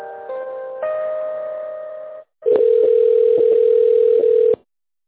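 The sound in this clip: Electronic telephone tones play as a call is transferred: a brief run of stepped, harmonic-rich notes, then a short gap and a steady buzzing tone for about two seconds, marked by a few faint clicks.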